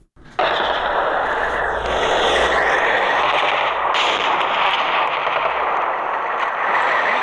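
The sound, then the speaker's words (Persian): Heavy gunfire from two days of clashes between Afghan and Pakistani forces in the Barikot area of Nari district, Kunar province, erupts abruptly and continues as dense, sustained automatic bursts, loud and unbroken, with no voices. “این صدای که درگیری ها در ساحه بریکوت و دو کلمه ولسوالی ناره”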